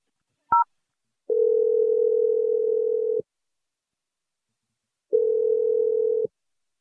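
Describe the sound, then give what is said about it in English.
Telephone tones sound while a call is placed: one brief higher beep, then two long, steady, low-pitched tones separated by a silent pause, all clean and alone. “We're going to dial Pamela for you right now”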